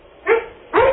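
A dog barks twice in under a second, two short, sharp yips separated by a brief pause, the second slightly longer and fuller.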